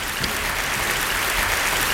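Audience applause, dense and steady clapping that fills the whole stretch at an even level, with no voices over it.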